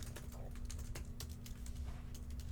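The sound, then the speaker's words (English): Faint clicks of a computer keyboard as a search query is typed, an irregular run of soft keystrokes over a low steady hum. “we're going to type solutions to shedding. Don't hit enter yet.”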